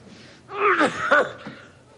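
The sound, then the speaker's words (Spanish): An ill man coughing into a handkerchief and bringing up blood: a few short, harsh, throaty bursts, the strongest pair close together, followed by a weaker one, heard alone. “Al toser, mancha de sangre el pañuelo con el que se tapaba la boca y se muestra alarmado.”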